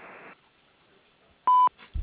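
An answering machine gives a single short electronic beep, a steady pure tone lasting about a quarter second, followed by faint line noise.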